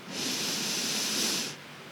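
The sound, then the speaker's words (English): A deep inhale taken by a person during a breathing exercise. It is one long, steady, airy hiss lasting about one and a half seconds, then cuts off sharply. It is heard alone, with no voices. “Okay, let's do it now. 1, 2, 3. Deep breath in.”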